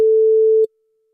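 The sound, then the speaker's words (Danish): A telephone ringing tone sounds while a call is placed to a listener: one pure, steady, mid-pitched beep lasting about two-thirds of a second before cutting off to silence. “Vi håber, at der er en, der tager telefonen her.”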